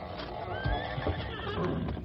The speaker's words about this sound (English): There are only four or five horses here.